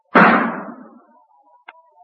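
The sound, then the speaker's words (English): A single loud gunshot fired at a target, with a sharp crack and a long fading tail, followed later by a faint short click. “stop shooting. Put down that gun.”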